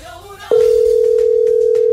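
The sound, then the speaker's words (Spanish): A telephone dial tone from a radio host phoning a caller starts about a quarter of the way in and holds loud and unbroken at one steady pitch to the end. “Le estamos marcando de Radio 1, la de 1. Pues a ver si contesta para que sea el papá único de esta primera semana.”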